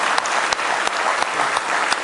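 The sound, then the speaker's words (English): A church audience gives a hearty round of applause as praise, a dense, steady wash of many hands clapping at once, loud and even throughout with a few sharper claps standing out. “Oh, give him a real good hand clap of praise tonight with all your heart.”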